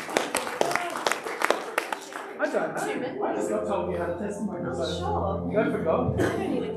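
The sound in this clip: An audience claps to welcome a speaker to the front, a run of sharp, scattered handclaps that thins out as voices begin talking and chuckling over the remainder.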